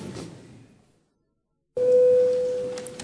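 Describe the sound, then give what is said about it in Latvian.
A parliament's vote-call bell sounds as a steady, sustained electronic tone after a brief silence, loud at first and then holding more faintly. A low murmur of room noise sits beneath it. “Lūdzu zvanam.”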